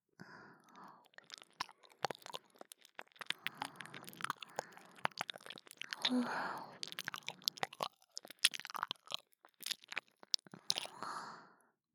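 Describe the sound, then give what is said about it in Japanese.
Ear cleaning produces faint crackling and scratching, many tiny clicks, crunches and soft rustles in irregular bursts, with a few smoother, slightly louder swells along the way. “耳掃除が終わったら、そちらも退所させていただきますね。もう少しでお耳きれいになりますよ。”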